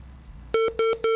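A mobile phone rings with three short, loud electronic tone bursts at one steady pitch, evenly spaced, after a quiet lead-in.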